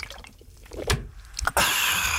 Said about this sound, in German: Na, dann darauf doch erstmal ein schönes, kühles Glas Wasser.